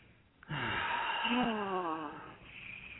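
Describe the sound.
A deep breath let out as a long, breathy sigh with a wavering voiced tone, lasting about two seconds before trailing into quieter breath noise.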